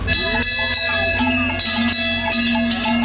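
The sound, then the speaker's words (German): Cowbells clank continuously on cattle during an alpine drive in South Tyrol, many bells overlapping in a steady, loud metallic jangle of irregular strikes. “Almabtrieb irgendwo. Ja, also das war aber nicht in Bayern, wenn ich das mal sagen darf.”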